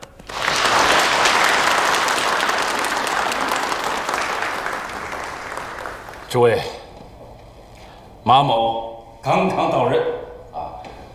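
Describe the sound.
Applause from an audience welcoming a newly appointed acting provincial chairman: a dense, steady wash of clapping for about six seconds that fades, followed by a man's voice speaking in short bursts.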